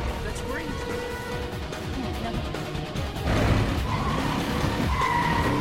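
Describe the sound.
A vehicle speeds past a still-burning truck at the ruins of a house and onto a road leading to a bridge, its engine roaring with tire skids; the noise grows louder about halfway through.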